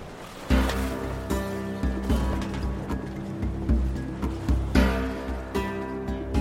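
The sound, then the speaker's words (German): Sea waves around a sailing ship on the Indian Ocean, a steady series of rolling surges that swell and ebb about once a second over a low, continuous hum. “Sie verließen die Insel Sumatra und fuhren 18 Monate durch das Indische Meer, bis sie ihr Ziel erreichten.”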